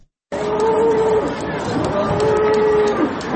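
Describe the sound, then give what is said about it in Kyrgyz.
Cattle at a livestock market in Istanbul let out two long, drawn-out moos over a steady background of crowd murmur and voices. “Бул курман айтта Стамбул шаарында 209 жерде атайын мал базары уюштурулган.”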